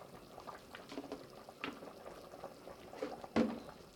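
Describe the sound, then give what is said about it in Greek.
Potatoes and carrots boil in a pot, a faint, steady simmering bubble broken by a few louder pops and gurgles near the end. “Συνεχίζουμε το βράσιμο. Μέχρι να μαλακώσει καλά η πατάτα και το καρότο.”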